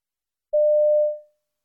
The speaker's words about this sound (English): You hear a message on a telephone answering machine.